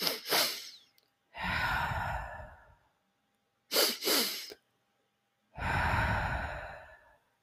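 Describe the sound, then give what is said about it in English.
Calming breathing done twice: two quick, sniffing breaths in, then one long, airy exhale. It is a soft, slow pattern with quiet pauses and no talk. “you take two short breaths and one long exhale. And it goes like this.”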